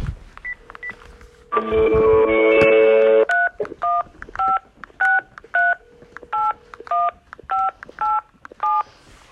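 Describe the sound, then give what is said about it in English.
Telephone keypad tones as a number is dialed to reach a McDonald's location: a steady line tone, then a long held tone, followed by many short, evenly paced two-pitch beeps. “We're gonna call a different Mcdonalds location. Here we go.”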